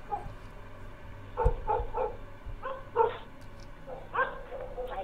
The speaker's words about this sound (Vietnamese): Tiếng mấy con chó ở trong xóm cứ cắn nhấm nha nhấm nhặng, thỉnh thoảng lại tru lên từng hồi đến sốt cả ruột.